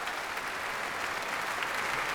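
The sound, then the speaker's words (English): A concert audience at City Hall applauds to bring a banjo player back for an encore, a thick, unbroken patter of many clapping hands, steady and fairly soft throughout. “And the audience here at City Hall's bringing Bela back to the stage. They're trying to, at least.”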